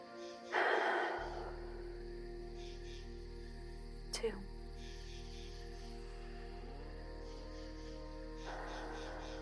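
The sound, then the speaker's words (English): Slow, deep breaths taken to get ready for sleep: a long, breathy exhale near the start and a softer one near the end, over a faint, steady low drone. “let's get ready to sleep by taking our 3 deep breaths. Here we go. 1.”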